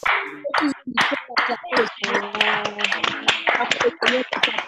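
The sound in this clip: An audience claps to acclaim the Lord during an online church service with microphones opened. Sharp, uneven claps ring out in a loose rhythm, and several voices talk and call out over them.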